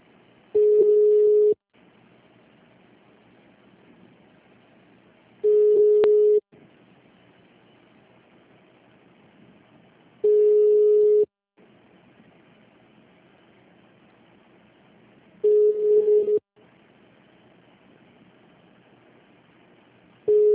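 A steady low telephone line tone sounds while a call is transferred on hold, repeating as a long beep about every five seconds over a constant hissy line noise, with four full tones and a fifth beginning at the end.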